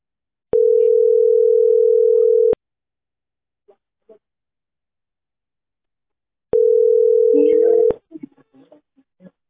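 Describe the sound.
A telephone dial tone sounds after the phone is hung up: two steady, unbroken low tones of about two seconds each, separated by several seconds of near silence, with faint brief sounds after the second.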